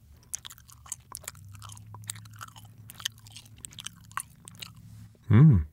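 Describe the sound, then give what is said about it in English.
Chewing gum being worked in the mouth, heard as many soft, irregular wet clicks and smacks, fairly faint and close, with no voices. “The only audio ASMR experience podcast about chewing gum.”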